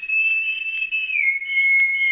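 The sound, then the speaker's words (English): An answering whistle sounds as one long, steady, high-pitched tone that dips slightly in pitch midway and then holds, loud and alone. “Then, almost like a delayed echo, there was an answering whistle.”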